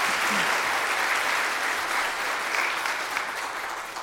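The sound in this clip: Applause from an audience welcoming speaker Tony Perkins, a dense, continuous clatter of many hands at an even level that eases slightly toward the end, with no talk over it.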